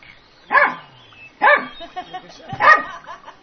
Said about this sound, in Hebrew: ועכשיו הגיע איזשהו כלב.